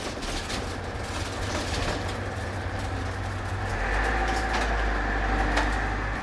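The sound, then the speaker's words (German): A methadone bus driving through Bremen on a holiday gives a steady low engine rumble and road noise that swells a little partway through, with faint higher rattles on top and no talking. “Ja, wir sitzen hier an einem Feiertag im Methadonbus, fahren durch Bremen und fahren vier verschiedene Stationen an”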